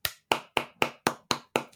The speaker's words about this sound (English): Clapping sounds.